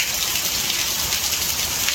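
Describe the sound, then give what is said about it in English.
Heavy rain pours down on the dry lake bed of the Nevada desert: a steady, dense hiss that stays even throughout, with no breaks, no thunder and no voices. “Intense rain in the Nevada desert has shut down the road in and out of the Burning Man Festival.”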